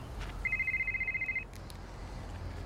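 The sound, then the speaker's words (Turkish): A mobile phone rings in a trouser pocket, giving a single burst of rapid, high electronic trilling pulses for about a second over a steady low background rumble. “Pantolonunun cebinden çalan telefonunu çıkarttı.”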